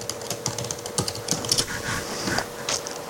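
Computer keyboard typing as a web address is entered: many quick, irregular keystrokes, fairly quiet, with short pauses between bursts and no voices.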